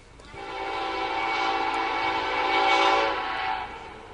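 A train horn sounds near a college baseball field during a game: one sustained, loud, multi-tone blast that holds steady for about four seconds, then cuts off.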